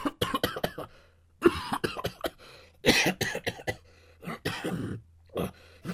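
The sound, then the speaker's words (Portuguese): Coughing from one person in a rapid series of many short, rough bursts grouped into clusters, moderately loud throughout, with a faint low hum in the background and no talk. “Após a contagem das três tossidas.”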